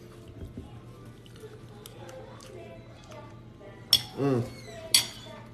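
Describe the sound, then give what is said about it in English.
A spoon clinks against a plate while avocado toast is eaten. A faint low hum runs under quiet handling, then two sharp metallic clinks come with a short scraping burst between them. “This toast is so good. I'm eating avocado toast with a spoon.”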